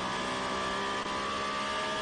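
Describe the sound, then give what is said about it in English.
Peugeot and Toyota race cars battle on a circuit, their engines a steady, dense roar that runs unbroken for two seconds at a moderate level with no clear gaps. “Peugeot-Toyota battle going on at the Marianda out of the very top of the circuit there.”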